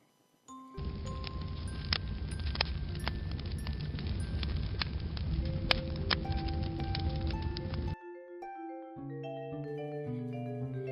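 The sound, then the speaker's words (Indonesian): An object burning in fire gives off a steady crackling hiss sprinkled with sharp pops for about seven seconds. The fire sound then stops and a short melodic run of soft tones follows. “Kalian sudah bisa menebak suara benda yang terbakar api.”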